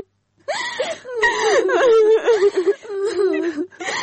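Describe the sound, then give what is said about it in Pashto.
A woman crying, a wavering, sobbing voice that whimpers and breaks in pitch almost without pause for about three and a half seconds, fairly loud, with short catches of breath between phrases. “بس دی مه ژاړه”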